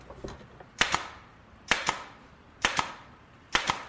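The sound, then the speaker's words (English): A nail gun drives nails into hard wood with four sharp shots at a steady rhythm. Each shot is a crisp double clack, a loud pop followed quickly by a second snap, with no voices. “The nails won't go in. The wood is too hard. I think I'm going to need the nail gun.”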